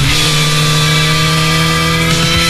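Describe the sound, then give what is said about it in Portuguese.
A motorcycle engine runs at a motorcycle rally in Apúlia, giving a steady, loud, low humming drone with even harmonics and no clear change in speed throughout. “Liga o motor, chama a tua família Motarde e faz parte desta história.”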